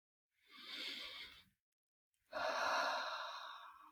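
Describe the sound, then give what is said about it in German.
Deep breathing in and out during a guided relaxation exercise: two soft, airy breaths separated by a short silent pause, the first shorter and quieter, the second longer and fuller, with no voices. “Dann atme wieder etwas tiefer ein und aus.”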